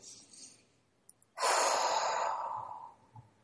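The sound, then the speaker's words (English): A single deep breath taken by a person settling into relaxation: a loud, airy rush lasting about a second and a half that slowly fades out, with quiet background before it. “I'm going to right now take a deep breath.”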